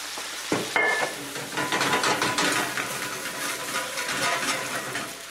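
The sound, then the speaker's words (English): Pinot Grigio wine is poured into a hot pan to deglaze it, setting off an abrupt, loud sizzle after a brief quiet moment. The dense, crackling hiss then holds steady to the end, with light stirring movement in the pan. “All right, so now our pan is nice and hot, and I'm just going to deglaze with a small amount of wine.”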